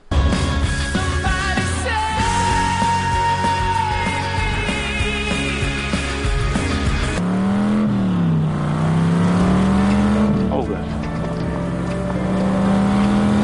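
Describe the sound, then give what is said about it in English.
An old blue Dodge Charger drives along, its engine giving a loud, steady drone throughout. Partway through, the engine tone drops to a deeper rumble that then climbs slowly, as if revving. “and that old Charger. Apparently he's driving a couple miles up to the farm.”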